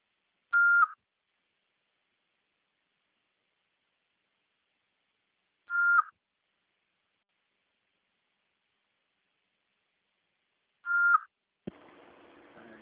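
Answering machine beeps: three short electronic tones, evenly spaced about five seconds apart, each brief and clear over silence. The last is followed by a low hiss of line static.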